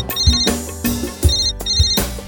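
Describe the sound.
An electronic telephone ringtone plays a bright, high melodic pattern that repeats several times over a low, thumping beat. It is loud and steady, with no voices.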